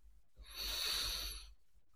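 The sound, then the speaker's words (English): One deep inhale through the nose, a soft hissing rush of air that swells and holds for about a second before stopping, heard alone against near silence. “Start by taking a nice deep inhale through your nose.”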